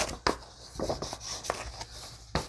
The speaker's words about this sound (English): There we go. Fold in half.